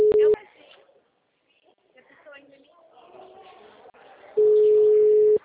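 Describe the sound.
Telephone ringback tones while a call is being placed: a short, loud, steady tone at the start and a longer one of about a second at the end, with quiet talk in between.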